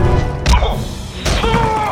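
Impact effect of an alien creature's tail striking a soldier: two heavy whacking thuds a little under a second apart, the second followed by a brief ringing tone.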